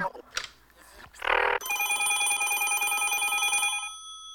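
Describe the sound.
A telephone rings in one long, steady electronic burst that fades out at the end. Brief voice and rustling sounds come before it.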